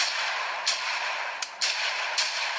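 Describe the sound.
Video game gunfire: a few short, sharp shot bursts stand out over a dense, constant hiss of game noise.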